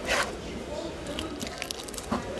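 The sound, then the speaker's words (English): Wet squishing and soft scraping come from a vendor gutting Amazon River pacu at a fish market: a few sharp squelches and knocks spread through the stretch, with voices mixed in. “At the Manaus fish market, a vendor guts Amazon River pacu and bags them up for customers.”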